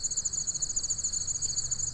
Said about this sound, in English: Right now you're hearing some crickets,